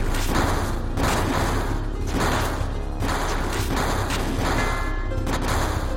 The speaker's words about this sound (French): Sans dire un mot, il lève le bras et les soldats ouvrent le feu.